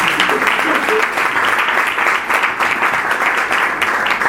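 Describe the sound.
Loud, dense audience applause at a book presentation, a thick continuous rush of many clapping hands that holds steady throughout, with a slight dip midway.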